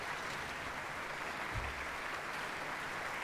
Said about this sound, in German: Ein großen Applaus für den Pascal Schumacher natürlich.